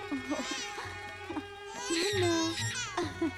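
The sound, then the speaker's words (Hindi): A little girl cries and sobs in wavering, high-pitched wails and whimpers over a steady low hum. “मत रो मेरी बच्ची।”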